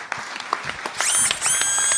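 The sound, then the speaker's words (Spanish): Applause from an audience after a speaker at a debate on democracy. It breaks out abruptly midway and stays loud and sustained to the end, following quieter scattered sounds. “Aplausos para Eduardo Rinesi.”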